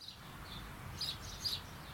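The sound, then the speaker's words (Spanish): Small birds chirping faintly: a few short, high tweets over a soft, steady hiss. “Los pajaritos que nos anuncian la llegada de Trini”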